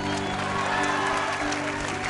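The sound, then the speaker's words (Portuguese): A church audience claps loudly for the Lord during a worship service. Dense, continuous applause runs at a constant high level throughout, with crowd noise mixed into the clapping. “Se você crê, dê um forte aplauso para o Senhor.”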